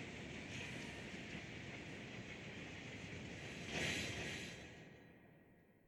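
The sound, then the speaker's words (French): Tram in World of Warcraft Classic running on its rails toward Ironforge: a steady, dense rumble with faint clatter, swelling into a brief whoosh late on before easing off. “L'elfe qui était avec vous te dit plus plus plus et saute du tram toujours en marche.”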